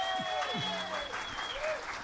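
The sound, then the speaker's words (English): Festival audience applause, a dense steady patter of clapping that continues throughout while a voice speaks over it. “so he deserves a round of applause for that,”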